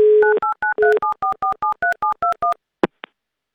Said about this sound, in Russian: Звоним Алексею.